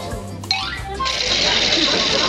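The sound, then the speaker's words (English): A sewing machine stitches during a cartoon household scene. It sets off a steady, buzzing whir about a second in and runs on evenly after softer sounds at the start. “I'm catching up on some of my sewing.”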